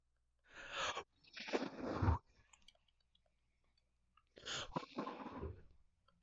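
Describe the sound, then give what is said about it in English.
ASMR blowing into the listener's ear: a few soft, breathy puffs of rushing air, close and fairly quiet, separated by a silent gap, with no talking. “Blow in your ear, dear listener.”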